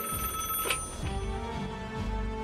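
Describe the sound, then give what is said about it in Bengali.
A household telephone rings, its tonal ring repeating in steady pulses with no voices over it. “এমন সময় telephone বাজে বোমকেশ ফোনটা ধরে বলে”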